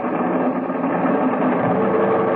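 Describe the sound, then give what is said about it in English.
Piston aircraft engines roaring at full throttle for takeoff with a heavy load, a dense, steady drone at constant loudness with no breaks throughout. “All right, give me every last inch of manifold pressure. Those engines will take without burning up. Go ahead. Wide open, sir.”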